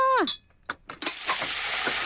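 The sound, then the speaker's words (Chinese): Chilies stir-fry in hot oil in a wok, a few short clatters giving way to a steady, loud sizzling hiss that carries on to the end. “油煎的脆响在巷口低语，铁锅正翻炒着辣椒的热烈”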